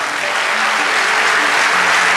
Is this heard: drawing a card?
no